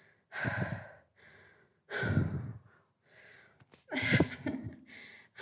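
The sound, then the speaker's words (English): Heavy, ragged breathing of a person catching their breath: a series of loud, rough inhales and exhales separated by short pauses, some breaths stronger and harsher, others softer and shorter, with no speech. “I need to catch my breath.”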